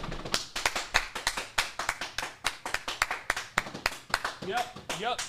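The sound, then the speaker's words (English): Applause in a studio, with many sharp hand claps in an uneven, busy patter. Voices rise over the clapping near the end. “Round of applause, please.”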